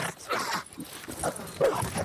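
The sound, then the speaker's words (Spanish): Growls of large four-legged beasts: a few rough, dog-like snarls and barking bursts, moderately loud, separated by short gaps. “Nos vamos turnando para tomar la vanguardia hasta que un par de gruñidos detienen nuestro avance.”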